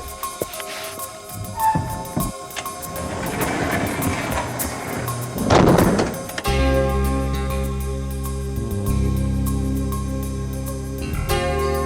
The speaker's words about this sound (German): Und jetzt muss ich das Tor schließen.